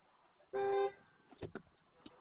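A car horn gives one short, flat honk, set off by a clipboard pressed against the steering wheel, followed by a few faint knocks and rustles.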